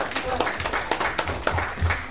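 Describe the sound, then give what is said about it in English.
A church audience claps after a Bible reading from Matthew's Gospel, giving an uneven, steady patter of many hands with sharp individual claps poking through. “Well, I think we should give them another clap.”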